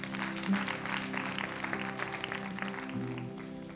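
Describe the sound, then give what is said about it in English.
An audience at a Wednesday night church service applauds, a dense, steady wash of clapping that holds at an even level throughout, with a low steady tone beneath it. “Let's give them a hand, everybody.”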